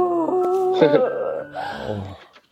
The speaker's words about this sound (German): Nee, komm hier, wir heulen einfach mal.